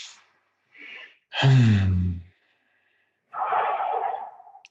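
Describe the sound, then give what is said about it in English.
Breathing by a group settling into their bellies: a short airy intake, a louder voiced breath with a low rasp, a pause, then a long, even, breathy exhale that fades out. “Let's have everybody settle into their belly. So we'll just take, let's all take a breath together.”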